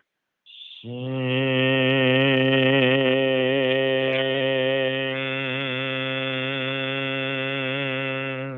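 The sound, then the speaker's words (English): A single voice makes a qigong heart sound, opening with a soft hissing 'sh' that flows into a long, steady, low hummed 'ing-ng' tone held for about eight seconds without pitch change. “You're starting with a soft shing, then to the ng sound at the end.”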